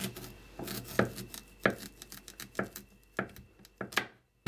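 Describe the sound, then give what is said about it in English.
Knife chopping an onion, heard as many sharp, irregular chopping strikes of varying loudness that end in a brief quiet. “I'm going to chop the onion while that's cooking.”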